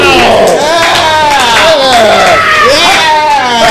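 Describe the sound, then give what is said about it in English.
Audience cheering for the hosts of a live comic book club show, with loud, continuous whoops and shouts from the crowd throughout. “Now give it up for your hosts, Pete LaFerry, Justin Tyler, and Alex Albert!”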